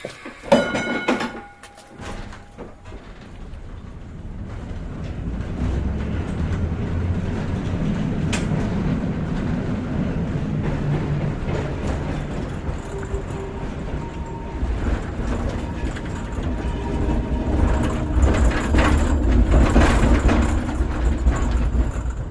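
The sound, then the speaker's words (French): A tram running on its rails in revolutionary Russia: a continuous low rumble with metallic clanks and clicks, a few sharp knocks near the start, and a swell in loudness toward the end. “Prenons le tramway”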